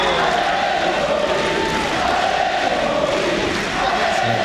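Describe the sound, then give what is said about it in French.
Tennis crowd cheering on the Suzanne Lenglen court at Roland-Garros: a dense, loud roar of many voices that holds at an even level throughout, with shouts blending into the constant din. “Justement, il a été porté par le public du Suzanne Lenglen qu'on peut peut-être écouter.”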